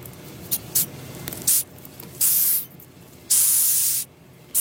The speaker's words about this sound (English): That is the sound of a 10-centimetre-long Madagascar hissing cockroach.